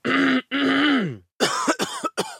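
A persistent, harsh cough: drawn-out hoarse vocal rasps, then a few sharp, choppy bursts close together, loud and without speech.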